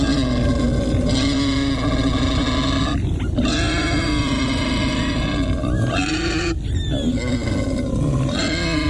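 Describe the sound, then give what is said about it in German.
Wild boar grunting: loud, rough, continuous grunts and snorts over several seconds, with two short breaks between bursts and no talk. “Also zusammenzucken, erstarren, das ist ein Wildschwein.”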